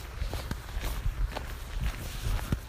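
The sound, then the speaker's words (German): Footsteps crunching along a narrow gravel path as someone walks outdoors: several steady, gritty steps at an even walking pace over a constant low rumble. “auf jeden Fall, ich laufe so. Das ist ganz schmal. Dieser Weg, also so ein ganz schmaler Kiesweg.”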